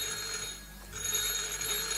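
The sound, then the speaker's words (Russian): A telephone rings with a steady, continuous electronic trill that holds at an even, moderately loud level throughout, with no talking. “Простите, мне нужно подойти к телефону.”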